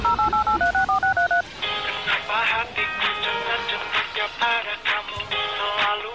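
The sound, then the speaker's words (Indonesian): A telephone number is dialed on a keypad: a quick run of about nine short DTMF beeps at differing pitches, followed by a busier, sustained tonal sound. “Dipencet nomornya, ya? Dipencet nomornya.”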